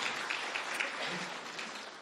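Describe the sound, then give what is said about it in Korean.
A church audience applauds in welcome, a steady, continuous patter of many hands clapping throughout with no break. “잠깐 일어나시면 우리 환영하는 박수 하도록 하겠습니다.”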